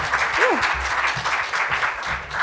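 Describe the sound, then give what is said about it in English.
Audience applause for a product demo at a launch event: steady, dense clapping fills the whole stretch at a fairly loud level, with faint voices mixed in. “Okay, Elise, thank you so much. Thanks, guys. Big hand for Whirly.”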